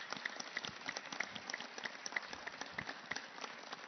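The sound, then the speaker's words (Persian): Faint, steady rhythmic clapping from an audience at a religious gathering for Imam Hasan, the claps falling in a brisk, even beat over a continuous background. “هر که دوست داره مدینه بره کف مرتب بکنه.”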